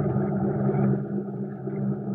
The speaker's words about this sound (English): Hey, the motor died. I know it. She won't kick over.